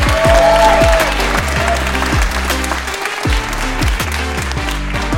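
A comedy club audience applauds as a comedian is welcomed to the stage. The clapping is loud, dense and sustained, with a thumping rhythmic beat underneath and a short dip near the middle.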